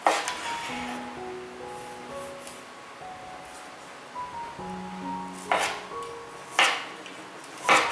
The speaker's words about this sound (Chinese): 现在先把蒂头剥掉。对半切，